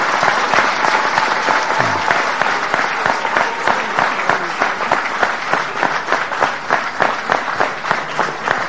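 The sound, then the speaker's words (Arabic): An audience gives a long, hearty round of applause for a group of students being honoured, with loud, dense clapping and sharp individual claps running steadily throughout. “يحتاجوا تسقفوا لهم تسقيفة مضاعفة يعني.”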